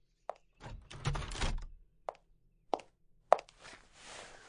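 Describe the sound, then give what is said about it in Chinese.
Doors and windows being shut: four sharp knocks or thuds spaced through the moment, with a burst of rustling and shuffling between the first and second. “稍等一下，我把门窗给你关一下。”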